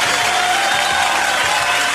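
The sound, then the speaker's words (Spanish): Massive applause and crowd noise for people who compete in sporting events forms a brief, loud, dense wash of clapping that holds steady from start to end. “Que se oiga masivo el aplauso.”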